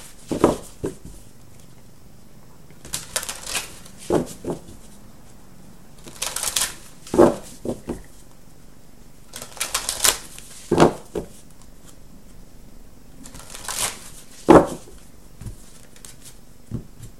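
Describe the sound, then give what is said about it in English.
Cards from a Life Purpose oracle deck are shuffled and drawn, giving several separate bursts of crisp papery riffling and sliding with short quiet gaps between them. No voices are heard. “let's go ahead and get three cards from the Life Purpose deck for Aquarius, Sun, Moon, and Rising.”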